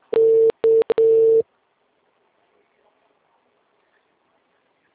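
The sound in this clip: An unanswered telephone rings as a steady, mid-pitched electronic tone in several bursts of uneven length, followed by silence.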